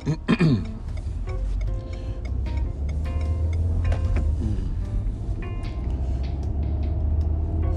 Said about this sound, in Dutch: Even stilte, want er moest een enorme truck uh, eh, de weg op rijden.